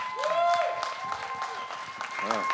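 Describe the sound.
Church audience applauding a guest pastor being welcomed, a warm wash of clapping with a few voices and cheers rising through it.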